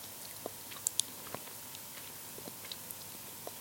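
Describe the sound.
Someone chews meadow plant buds, making faint, soft, irregular crunching clicks scattered over a quiet background.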